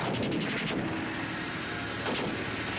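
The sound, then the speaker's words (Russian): Gunshots ring out during a battle against advancing tanks: two sharp, loud bursts, one at the start and one near the end, over a steady noisy rumble. “Выстрел”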